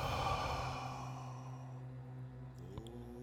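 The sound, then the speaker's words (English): A long breath is released after being held during a guided breathing exercise: a soft, breathy rush that is strongest at the start and fades over about two seconds, above a steady sustained tone. “Again, a long breath in. Hold. Release the breath.”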